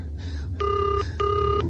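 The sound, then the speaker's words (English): A house telephone rings twice, each a bright, even ringing burst with a short pause between, clear above a low steady hum. “he was galloping breathlessly towards the house and the phone. Come on. Come on, answer, for heaven's sake.”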